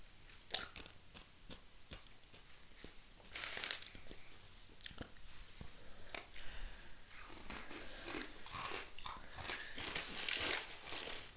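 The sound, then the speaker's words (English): Dried, uncooked pasta noodles are crunched and chewed. Many faint, brittle cracks and crunches come in irregular bursts, and no one speaks. “Those are definitely dried pasta noodles. Yeah, they're so bland.”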